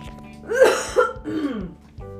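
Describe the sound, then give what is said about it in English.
A person clears phlegm from their throat in a few rough, rasping bursts of moderate loudness with short gaps between them. “Excuse me one moment. I have phlegm in my throat.”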